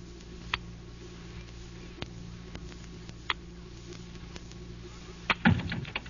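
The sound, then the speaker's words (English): Mallet and chisel cutting a rock: a few sparse, sharp taps spaced well apart, then a heavier, louder strike with a brief clatter near the end. “Hand me that mallet and chisel.”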